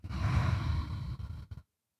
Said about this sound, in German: Nimm einen tiefen Atemzug durch die Nase ein und aus.